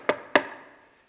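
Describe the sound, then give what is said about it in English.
Knuckles knocking on a front door, two crisp raps in quick succession, each with a short fading tail. “And when she finally reached his front door, her knuckles were frozen from the cold. She knocked,”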